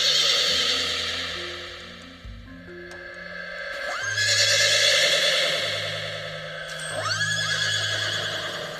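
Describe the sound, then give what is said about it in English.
Horse whinnies stand in for unicorns neighing in an imaginative children's fantasy tale. A few loud, shrill whinnies rise and fall, with a long one near the start and more around the middle and end, alone without talk. “But what they have a lot of in Unicornia are unicorns. They run around all the time. My favorite. Yes, and this is what the people hear every single day.”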